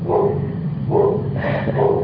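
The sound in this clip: A dog barking, a few short mid-pitched barks in quick succession, loud and alone with no voices.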